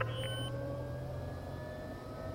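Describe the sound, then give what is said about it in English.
Aircraft engine droning as the plane taxis, a steady low hum with faint sustained whining tones, continuous and without talk. “We're ready to taxi. Buckle up and be ready. We're wheels up for home in 5.”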